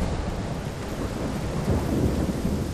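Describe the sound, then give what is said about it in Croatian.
A thunderstorm with heavy rain makes a dense, steady roar of downpour, and a low thunder rumble swells briefly past the midpoint before easing back. “Podigao silne oblake i sručio kišu koja je danima padala, sve dok nije potopila sve kuće i uništila nasade.”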